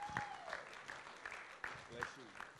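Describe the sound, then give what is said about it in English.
Audience applause at a church event welcoming a woman pastor to the stage, a steady rattle of clapping with sharper bursts throughout, under a voice. “Let's put our hands together and welcome Lynette Tobin, shall we?”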